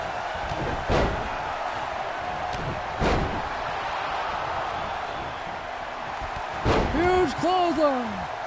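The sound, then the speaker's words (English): Heavy thuds of a wrestler slammed onto the mat with a gorilla press slam during a pro wrestling match: a few sharp, loud impacts spaced seconds apart over steady background noise. “Gorilla press slam.”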